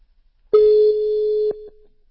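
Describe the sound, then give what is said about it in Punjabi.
An electronic telephone ringing tone on an outgoing call, a single clear mid-pitched beep held for about a second, then continuing more quietly for a moment before cutting off. “ਮੈਂ ਉਹਨਾਂ ਨੂੰ ਕਾਲ ਕਰਕੇ ਵੇਖ ਲਾਂ ਜੇ ਉਹ ਆ ਲਵੇ।”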